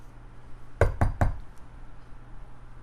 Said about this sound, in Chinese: 门口传来敲门的声音，会是谁呢？